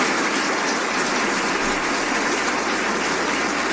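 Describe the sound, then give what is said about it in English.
A long round of applause for actor and Parkinson's advocate Michael J. Fox at an Order of Canada ceremony at Rideau Hall, Ottawa, forming a dense, even wash of clapping throughout. “actor and Parkinson's disease advocate Michael J. Fox garnered a long round of applause as he was promoted to companion in the Order of Canada.”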